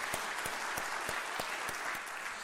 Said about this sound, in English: Welcome to the family. We look forward to serving the Lord together. Yes, give them a hand.